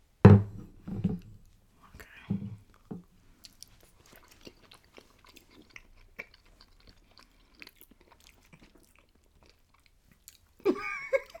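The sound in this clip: Chewing and tasting cold, unmelted cheese: a few louder, crunchy mouth bursts at the start and again at the end, with faint, irregular smacks and clicks in between and no talk.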